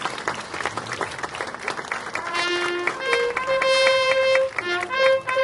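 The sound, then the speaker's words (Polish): Audience applause at a formal ceremony, a dense steady clatter of many hands that carries throughout, with sustained musical tones joining in partway through and continuing over the clapping. “Wielkie brawa, drodzy Państwo. Wielkie brawa.”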